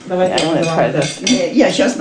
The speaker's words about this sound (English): rice flour, wheat flour, vanilla sugar, skin of orange. And he mixes by hand.